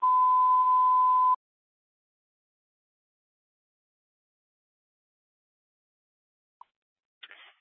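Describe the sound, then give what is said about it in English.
A phone ringtone beeps: one steady, bright electronic tone holds for over a second, then silence, broken near the end by a very short blip and a brief burst of higher beeping. “Next ringtone.”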